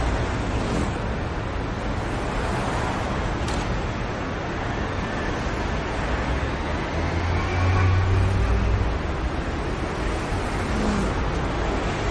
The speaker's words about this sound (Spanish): En la calzada hay tráfico denso.